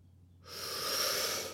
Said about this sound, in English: Take a breath in.